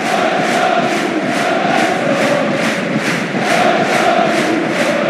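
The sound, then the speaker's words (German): Roaring crowd of Bayer Leverkusen football fans celebrating an unbeaten league championship, a loud, dense wall of cheering driven by a steady, regular pulse of many rhythmic beats, like clapping or chanting in time. “Und es gab eine riesen Feier und einen schönen Sound von den Fans.”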